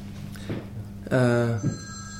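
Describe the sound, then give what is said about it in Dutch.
A telephone rings with a caller on the line: one short electronic tone with a bright, buzzy ring, set between brief sounds of speech. “We hebben een beller.”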